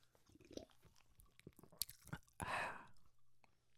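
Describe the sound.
Food is bitten and chewed in an ASMR taste test, faint moist crunches and smacks building to a louder, crisp crunching burst midway before quieting.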